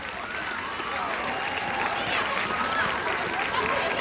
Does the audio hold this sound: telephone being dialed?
no